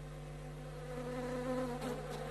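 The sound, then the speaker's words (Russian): Flies buzz in a steady, dense drone, a swarm of many insects over a scene of countless lifeless bodies strewn across a city, with a faint wavering hum that swells slightly in loudness midway. “Что это? О, маэстро, сколько мух!”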